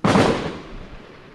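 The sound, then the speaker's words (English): One heavy blast from a gun battle in the city of Misrata, Libya, where tank and mortar fire are reported. It hits with a sharp, loud onset and then fades in a rumbling decay over about a second. “What we're hearing is huge gun battles taking place, tank fire, mortar fire, machine gun rounds.”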